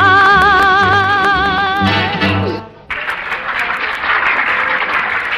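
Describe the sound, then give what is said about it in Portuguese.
Applause from two men watching a stage show in a 1956 film comedy. It follows a sung, orchestrated song with wavering vocal notes that breaks off, and the clapping then continues as a moderate, steady patter. “Generoso e Chico Fumaça aplaudem boquiabertos.”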